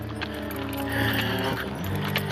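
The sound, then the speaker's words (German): A donkey's hooves clip-clop at a quick, steady pace, their rhythmic knocks set within a dense, continuous bed of other sound that runs through the whole clip. “Hey, du blöder Esel, nicht so schnell.”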